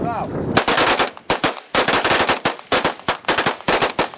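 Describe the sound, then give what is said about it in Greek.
Automatic gunfire from about 15 rebels emptying their weapons in a salute for victims of fascism at a ceremony on the Saur-Mogila height in Donetsk: loud, dense bursts of rapid overlapping shots separated by short gaps. “Περίπου 15 αντάρτες αδειάζουν μπροστά μας τα όπλα τους σε ένα χαιρετισμό για τα θύματα του φασισμού.”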